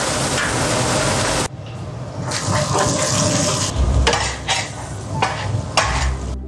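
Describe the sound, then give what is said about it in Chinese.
Scallion and ginger hit a hot pan and are stir-fried, giving a steady sizzling hiss with bursts of scraping and stirring. The sound shifts abruptly partway through as the ingredients go in. No one speaks. “放入葱姜”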